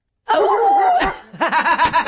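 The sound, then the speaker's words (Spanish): Human voice imitating a dog barking: first a drawn-out, wavering howl-like cry, then, after a short break, a quick string of short yelping barks. “¡Cuando el perro ladra!”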